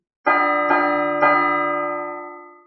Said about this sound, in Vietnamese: Tiếng chuông chói tai vang vọng cả không gian